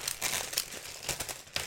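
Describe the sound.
Crinkling and crumpling of a cookie package being torn open, a continuous rustle of wrapper with a few sharper crackling bursts, with no talking.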